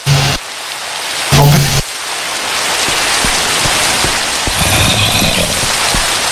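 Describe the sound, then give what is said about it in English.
Rain falling steadily, a loud dense hiss with scattered sharper drop impacts, and a couple of brief louder rushes at the very start. “It's raining.”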